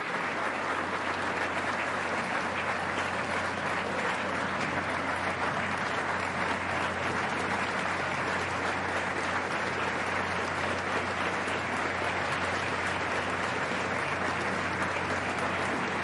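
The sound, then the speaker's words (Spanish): Crowd applause for the national armed forces at a political address: dense, loud clapping from a large crowd, steady and unbroken for the whole stretch with no rise, pause or talk over it. “Un aplauso grande a la Fuerza Armada Nacional Bolivariana.”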